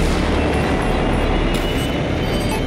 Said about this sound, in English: prepare to launch. Second stage tanks now pressurized. T-minus now, liftoff.